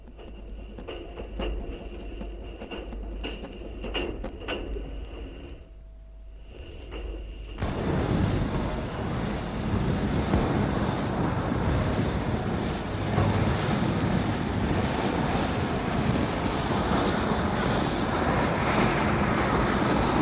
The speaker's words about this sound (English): The driver moves his regulator back, passengers are up and stirring about, and she slips into the platform.